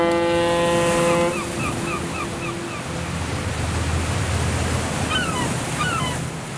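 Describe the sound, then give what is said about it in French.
A cruise ship's foghorn sounding in Havana harbour from a 150-metre liner: one long, deep, steady blast that fades after a few seconds, over a continuous wash of waves and water noise. “la corne de brume d'un navire de croisière retentit dans le port de la Havane.”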